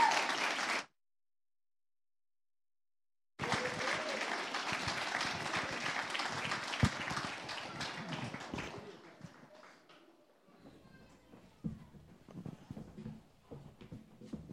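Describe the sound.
An audience applauds to welcome the Voices of Zambia singers at a Nebraska event: a brief burst, a silent gap, then sustained clapping that gradually thins into scattered claps and light noises.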